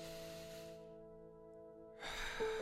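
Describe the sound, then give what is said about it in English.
A deep breath drawn in through the nose, a soft airy rush heard over a sustained low musical drone. “Let's just start by taking a deep conscious breath through the nose into the belly.”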